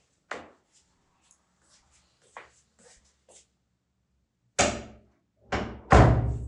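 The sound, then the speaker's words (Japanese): A bathroom door being closed: a few soft thuds and shuffles, then several louder, fuller knocks near the end as the door swings shut and latches. “浴室だと結構響いちゃうので声が、よいしょ、はい、ちょっと扉閉めます。”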